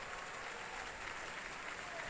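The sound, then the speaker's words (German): Applause from an audience in a concert venue as the conductor and orchestra are acknowledged after a long evening performance, a soft, steady, dense wash of many hands clapping with no distinct pauses. “Unter heftigen Beifall, wie Sie hören, hier in der Felsenreitschule.”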